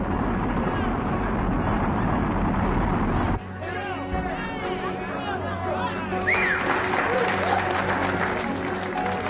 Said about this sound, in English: Ignition. We have liftoff of the shuttle orbiter.